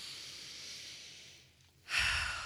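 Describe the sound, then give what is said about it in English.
A big deep breath taken during a guided calming exercise: a soft, airy hiss that fades and then swells into a louder, breathy rush near the end, with no talk. “in this breath, take a big breath.”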